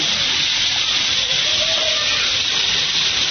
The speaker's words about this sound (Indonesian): Kalau yang ini kompor minyak tanah, ini kurang bagus.